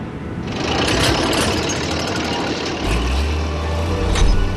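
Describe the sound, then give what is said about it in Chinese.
Excavator engine starting the day's work at a salt lake, moving at about 3 km/h: a loud, steady mechanical rattling drone, with a deeper engine rumble joining in partway through. “盐棚启动了他的挖掘机，以每小时3公里的速度开始了一天的寻坝作业。”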